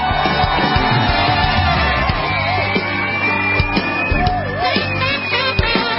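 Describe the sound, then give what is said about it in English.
A studio audience cheers a guest with loud whoops and yells over a steady crowd roar, lively and unbroken throughout. “ladies and gentlemen, please put your hands together and welcome Justin Awad.”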